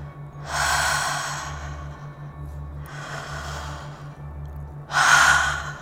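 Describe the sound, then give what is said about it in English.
Deep open-mouthed breathing during a meditation: three long, airy breaths, each swelling and fading slowly, the last one louder, over a soft, steady pulsing low tone. “Deep breaths. Open the mouth.”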